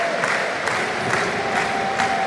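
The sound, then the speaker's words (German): Stuttgart football fans in the Cannstatter Kurve chanting as the whole stadium crowd stands, a loud, dense roar of massed voices pulsing with regular rhythmic accents, like clapping on a steady beat, throughout. “Stuttgarter Publikum steht jetzt komplett, steht auf, wenn ihr Schwaben seid, stimmt die Cannstatter Kurve an.”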